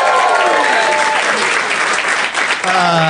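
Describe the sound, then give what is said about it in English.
A live theater audience at the UCB Theater in Los Angeles bursts into loud, dense applause with whoops and cheers, sustained evenly throughout. “We are at the UCB Theater in Los Angeles in front of a live audience. Let's hear it, audience.”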